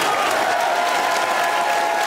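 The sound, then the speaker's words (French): A standing ovation from the audience at a political campaign meeting, with thick, loud and even applause that holds steady without a break for the whole clip. “Et standing ovation.”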